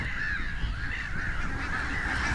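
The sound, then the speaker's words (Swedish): Black-headed gulls calling in a colony of thousands, a continuous dense chorus of harsh, nasal cries that overlap without pause at a steady, moderate loudness. “för här är det tusentals skrattmåsar.”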